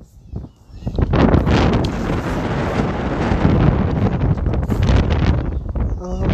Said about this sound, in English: The wind's not pushing against me.